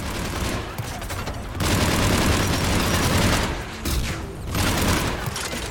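Heavy gunfire from a mounted turret in a video game: loud, continuous firing with two short lulls before the shooting picks up again.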